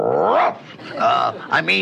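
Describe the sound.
A man's voice imitates a dog, giving a throaty growl and then a few shorter barking yaps. The voiced, rough bursts are loud and come alone, without other speech.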